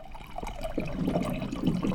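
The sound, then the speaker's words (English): Water pours into a glass from a Culligan water dispenser, a steady, bubbling trickle that runs continuously and fills the whole clip at an even level. “pours a glass of water from his Culligan water dispenser”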